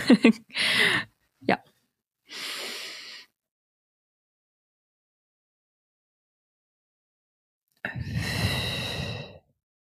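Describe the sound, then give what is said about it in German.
A deep breath drawn in, then a long silent hold, then a long, loud, steady exhale. A few brief breathy sounds come at the very start. “es ist wichtig, einmal wirklich einen tiefen Atemzug durch die Nase zu nehmen dann anzuhalten.”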